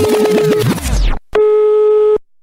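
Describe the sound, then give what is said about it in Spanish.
Low, steady electronic tone from a telephone left off the hook, held for nearly a second, preceded by a busier burst of layered tones that sweeps away into a brief gap. “la Q tenemos un teléfono que siempre tenemos descolgado para que todo el público piense que siempre nos están llamando.”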